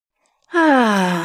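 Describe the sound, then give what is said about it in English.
A deep belly breath, drawn in as a loud, voiced gasp-like sigh after a moment of silence, held for nearly a second with a slightly falling tone. “So step one is you take deep breaths. I recommend deep belly breaths, filling up the lower part of the belly.”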